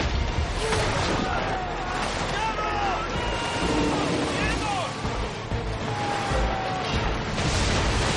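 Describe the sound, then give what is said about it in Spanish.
Storm waves crash against a ship tossed onto its side in a film, a continuous heavy roar of churning water and wind with thin whistling tones rising and falling throughout. “Las olas tumban al barco de costado que se recupera con dificultad.”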